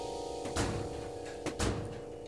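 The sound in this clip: A door is opened with a couple of dull thunks about a second apart, heard over a steady low hum.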